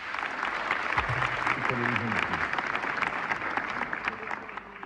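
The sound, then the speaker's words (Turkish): An audience applauds as a radio choir of singers and instrumentalists comes on stage: dense, continuous clapping that holds an even level throughout, with a voice briefly audible early on. “Radyomuzun hepsi birbirinden değerli ses ve saz sanatçıları koromuzu oluşturuyor ve alkışlarla huzurunuza gelecek Zafer Gündoğdu yönetiyor.”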